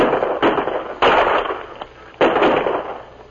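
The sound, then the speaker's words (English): Rifle gunfire rings out during an ambush on a wagon in a canyon: a few loud, sharp cracks in quick succession, each followed by a brief rumbling tail, with no voices heard. “With rifles ready, Luke and his men concealed themselves until the wagon entered the canyon. Then, "Get them, boys!"”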